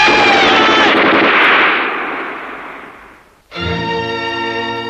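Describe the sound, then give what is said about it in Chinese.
Loud machine-gun volley during an execution of prisoners, a dense burst that rings out and slowly fades over about three seconds, after which a steady tonal chord enters. “一批批共产党员被杀害了，子弹仿佛打在朱华的身上。”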